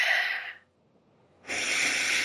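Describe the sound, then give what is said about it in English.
Deep belly breathing, inhaling and exhaling: two long, loud, airy breaths separated by a pause of near silence. “Inhale and exhale. Breathe down into your belly and just allow yourself to be with yourself. Just find your breath.”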